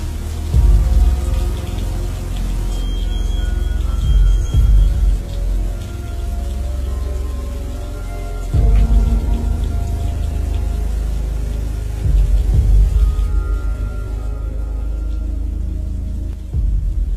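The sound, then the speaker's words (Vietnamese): Heavy, unexpected rain pours down over a village as people working in the fields take shelter. It is a steady, loud hiss that fills the whole clip, with a few deeper surges along the way and no voices. “Trận mưa trút xuống làng Thảo Hòa to lắm. Cơn mưa bất thường không ai ngờ được.”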